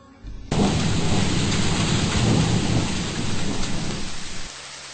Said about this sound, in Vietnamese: Cô đi qua hết cái hang, đến bờ giếng, thì bỗng nhiên có một trận mưa rào thật to.